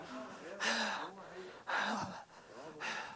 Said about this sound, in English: I'm still preaching. I'm just catching my breath.